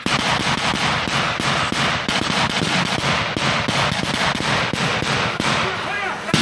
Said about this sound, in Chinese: 这是一段非常密集的枪声。